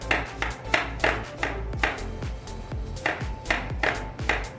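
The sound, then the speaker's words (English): Knife chopping and shredding cabbage on a cutting board, with many quick, evenly spaced crisp chops in a steady rhythm. “All right, kind of just shred the cabbage up like that.”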